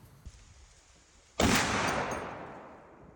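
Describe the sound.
A Barrett rifle fires a single shot: a loud, sharp blast after a quiet lead-in with a small click, then a long, slowly fading rumble.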